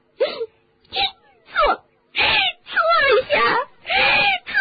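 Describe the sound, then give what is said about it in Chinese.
A voice imitates a house elf crying and wailing loudly, giving a series of sobbing, moaning cries in short bursts with brief gaps between them. “可没想到，那个小精灵多比突然痛哭流涕，这可把哈利吓了一跳。而且多比的哭声很大，”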